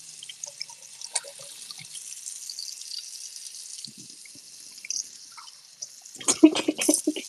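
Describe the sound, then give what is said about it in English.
Running tap water splashes over hands being washed at a sink, a steady hiss with scattered drips that grows into louder, choppier splashing near the end. “Does this sound weird? I'm just washing my hands.”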